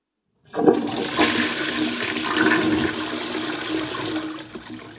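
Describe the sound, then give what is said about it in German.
A toilet flushes with a sudden rush of water that starts abruptly and holds as a loud, steady gushing roar for about four and a half seconds, with no voices. “Du kannst spülen.”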